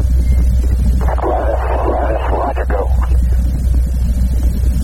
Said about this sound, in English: Engines now throttling back up to 104% performance.